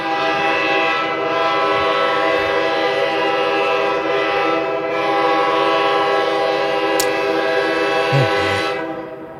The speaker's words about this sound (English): Can you hear that? Yes, folks, that's the sound of a train passing. Actually, several trains passing.